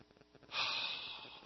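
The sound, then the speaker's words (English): A deep in-breath during a guided relaxation exercise: after a short near-silent pause, a single long airy inhalation starts abruptly and holds steady, easing off only slightly toward the end. “Letting go now. Letting everything go. Breathing in.”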